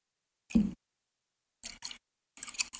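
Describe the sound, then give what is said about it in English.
A Funky Kong ASMR recording plays a few short, close-miked mouth and voice sounds, each brief burst separated by silence. “Before we move on, I have queued up some Funky Kong ASMR. Should we listen to a bit?”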